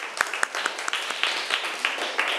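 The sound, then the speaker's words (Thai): Classroom students clapping for themselves: many brief, crisp hand claps from several people in a quick, uneven patter that lasts throughout. “ปรบมือให้ตัวเองหน่อย”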